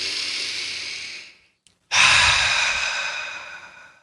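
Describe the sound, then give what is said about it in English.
A deep breath in and out: two long, loud, airy rushes of breath separated by a short pause. No one speaks. “today we are collectively taking a deep breath.”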